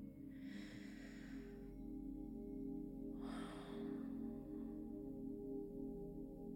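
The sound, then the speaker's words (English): Two slow, soft breaths drawn during a guided meditation, each an airy hiss lasting about a second, faint over a steady low hum. “So we're going to start by taking a few deep breaths to center ourselves.”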